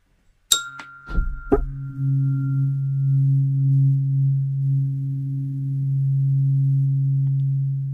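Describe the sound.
Om tone for meditation: a few bright metallic clinks at the start, then a smooth, low, steady hum that sustains alone at an even level to the end.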